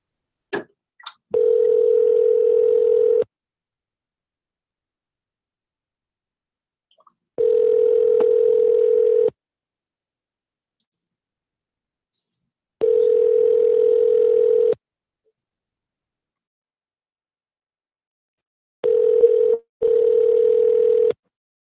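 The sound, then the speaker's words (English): Ringback tone of an outgoing telephone call waiting to be answered: a steady, low, buzzy tone in bursts of about two seconds, separated by long silent gaps and preceded by a few faint clicks. “He may answer this time because of all the ringing and such.”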